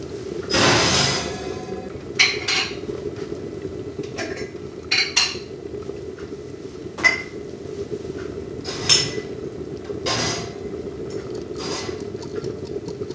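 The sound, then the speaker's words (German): Glass preserving jars clink and knock as they are loaded into an oven for sterilizing in home canning: a series of sharp, irregular clatters over a steady low hum. “also jetzt haben wir die Gläser im Ofen”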